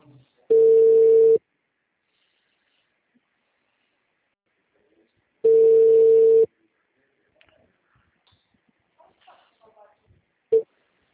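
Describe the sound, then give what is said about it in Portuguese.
A telephone ringing tone sounds on a call: two steady, mid-pitched tones, each about a second long and several seconds apart, followed by faint clicks and a brief sound near the end. “agora está chamando.”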